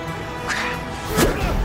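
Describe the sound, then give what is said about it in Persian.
Wooden broom handle snapping and being struck against someone: two sharp, swishing cracks roughly two-thirds of a second apart, heard over a continuous loud background. “به سمیر چوب دسته جارو رو میشکنه، میزنه به اون.”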